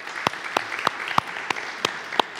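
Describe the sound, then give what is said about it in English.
Clapping for a church worship team after they led the service: seven sharp claps in an even, steady rhythm, crisp and distinct over a quiet background. “By the way, can we give our worship team a hand for just leading us today?”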